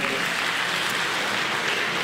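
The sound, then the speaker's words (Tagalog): Congregation applause during a church preaching service, a steady, soft wash of clapping that holds evenly for about two seconds without a break. “So, sige po palakpakan natin ang ating Panginoon”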